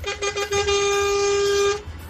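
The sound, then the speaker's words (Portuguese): A car horn honks for drivers out on the road: a few short toots, then one long, loud, steady blast held for over a second before it cuts off. “E pra vocês que estão no trecho, uma buzinadinha aqui pra vocês.”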